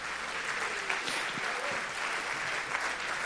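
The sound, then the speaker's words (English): Audience applause fills a church service as people walk up to the front to be prayed for. The clapping is dense and sustained at an even level throughout. “Give them a hand as they walk up.”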